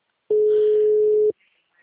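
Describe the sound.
An unanswered telephone call sounds a single steady electronic ringback tone, one clean mid-pitched beep held for about a second, then silence.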